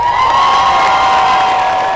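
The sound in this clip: A crowd at a march cheers on hearing news, giving a loud, sustained roar of many voices that holds steady throughout.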